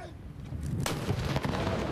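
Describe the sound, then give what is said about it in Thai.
A 21-gun royal salute fired by a royal guard anti-aircraft artillery regiment at an air force aviation park in Bangkok. A deep, sharp blast cracks out over a continuous low rumble. “กองทัพอากาศโดยกรมทหารต่อสู้อากาศยานรักษาพระองค์หน่วยบัญชาการอากาศโยธินทำการยิงสลุดหลวงเฉลิมพระเกียรติ21นัดณอุทยานการบินกองทัพอากาศ”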